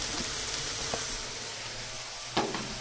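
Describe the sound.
Sliced bell pepper sizzles as it fries in a pan, a steady, fairly faint hiss with a couple of brief soft clatters.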